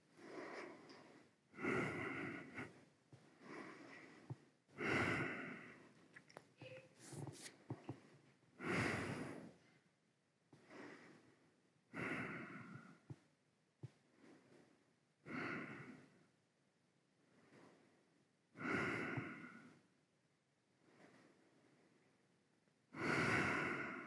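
Slow, relaxed breathing during a yoga relaxation pause: many long, airy breaths in an even, unhurried rhythm, each rising and fading, with quiet gaps between them and no talking.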